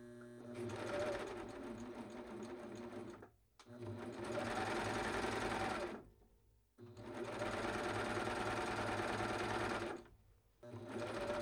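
A coverstitch sewing machine with two needles hems fabric, repairing a coverstitched hem in steady whirring runs separated by short pauses. Each burst holds an even, loud mechanical drone.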